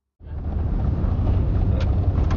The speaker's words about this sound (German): Es ist Nacht als ich mit zwei Männern auf einer Schotterpiste mitten in die Dunkelheit der mexikanischen Wüste fahre.